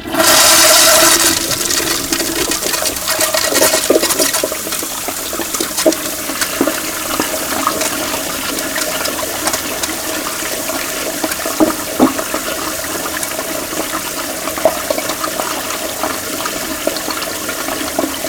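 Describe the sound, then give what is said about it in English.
A toilet flush used as a spooky sound effect: a loud rushing burst at the start, then a long, steady wash of churning water that continues to the end with no voices. “Ah, the haunted toilet that flushes for all eternity.”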